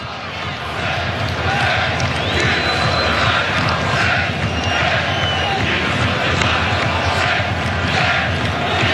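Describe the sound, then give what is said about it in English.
Moroccan football supporters chanting in a stadium in Foxborough, a loud, continuous wall of crowd noise that roars steadily throughout. “It's the sound of the Moroccan supporters.”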